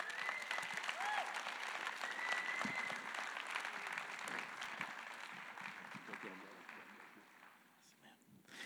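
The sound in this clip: A church audience applauds for a pastor, with loud sustained clapping mixed with crowd voices. It stays strong for most of the time, then eases near the end.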